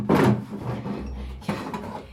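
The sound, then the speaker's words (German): A wooden drawer scrapes open as a pistol is taken out of it in an opera house dressing room. A broad scraping rub comes first, then a low hum, with a few further brief rattles near the end. “Die Frau schubste mich in die Garderobe hinein, wo sie aus einer Schublade eine Pistole holte.”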